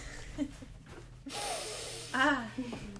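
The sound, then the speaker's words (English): A deep breath drawn in sounds as a breathy, airy inhale, with short voiced vocal sounds and low room noise around it. “Whoa, the podcast listeners, that was a very deep breath you just took.”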